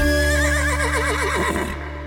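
A horse whinny rings out loud and alone in one long call, its bright, warbling pitch wavering rapidly and sliding downward near the end before cutting off.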